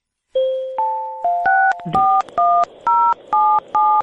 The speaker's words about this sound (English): Let's get dialed in this conference line.